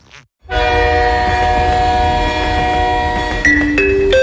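Train arriving at a station and sounding a loud, sustained horn with a rich, steady multi-note tone that shifts pitch in two quick steps near the end, over a low rumble.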